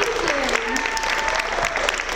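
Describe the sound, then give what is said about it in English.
Audience applause at an open mic night: steady, dense clapping that holds an even level for the whole stretch. “Yes, let's clap for Mia again.”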